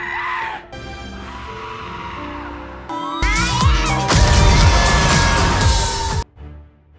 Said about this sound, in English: the protectors of our world are bestowed with great beasts. Giant goats!